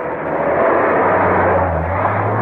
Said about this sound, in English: An engine roars to life, shattering the still night, and the chirp of the tires as they spin on the wet asphalt signal his leaving.